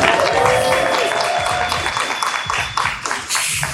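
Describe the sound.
Audience applause greeting a guest at a live party event: dense, steady clapping that carries on loudly throughout, thinning slightly toward the end.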